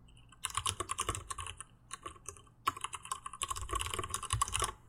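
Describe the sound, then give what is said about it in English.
Someone types on a mechanical computer keyboard, producing many crisp, rapid clacks in uneven bursts with brief pauses, fairly soft and heard alone without talk. “I also have with me special guests this week, my mechanical keyboard, because I promised the Discord I would give them some ASMR. Are you ready? I'm ready. Okay, hold on, let me type for you.”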